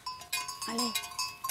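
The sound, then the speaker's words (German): Zerasca sheep of the Apennine mountains bleating, with one short, wavering bleat in the middle of a brief stretch of fainter flock noise. “Die Zerasca-Schafe gibt es nur in diesem Teil des Apennin.”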